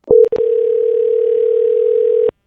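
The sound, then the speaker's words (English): Telephone dial tone as a caller joins the line: a couple of short clicks, then a loud, steady mid-pitched hum that holds for about two seconds before cutting off abruptly. “we actually have a caller joining us on the line”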